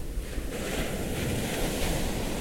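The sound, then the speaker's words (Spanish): A green river in Oaxaca's Sierra Sur flows with a steady, dense rush of water. The wash stays loud and even, with no distinct splashes or voices. “El Río Verde. Yo soy la voz del Río Verde. Mi corriente baja desde los valles de Oaxaca y recorre toda la Sierra Sur”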